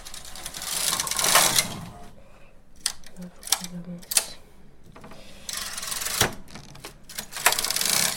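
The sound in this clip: A knitting needle passes through a stitch and catches the yarn, making rasping, rubbing swishes broken by sharp mechanical clicks. The sounds come in uneven bursts, with quieter pauses between them.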